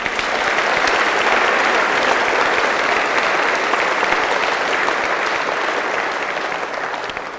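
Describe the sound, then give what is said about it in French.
An audience at a worship service applauds with dense, steady clapping that holds evenly for about seven seconds before tapering off at the end. “Acclamons-le encore.”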